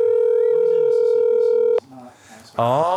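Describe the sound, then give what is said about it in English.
A telephone dial tone plays while a call is being dialed: a steady, loud hum with voices talking over it. It cuts off abruptly after under two seconds, then a brief quiet gap and a voice start. “You know he'll answer. And we're dialing.”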